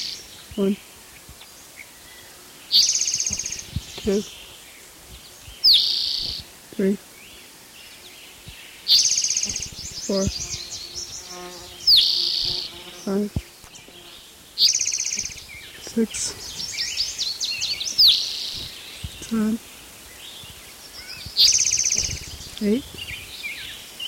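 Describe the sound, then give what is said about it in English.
Spotted toad calling: high-pitched trilling calls repeat in many short bouts with brief pauses between them, each a rapid pulsed burst that stands out clearly over a faint background. “Here's spotted toad number 14.”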